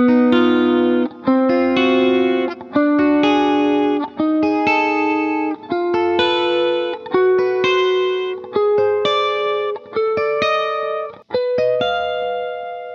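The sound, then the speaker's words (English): Two close-voiced triads, 4 plus 2 and 5 plus 1 drawn from the octatonic scale, played back and forth as a steady series of sustained, bright chords with a slightly distorted electric tone. “Let me introduce to you two triads that work together great. 4 plus 2 and 5 plus 1. Here's what they sound like.”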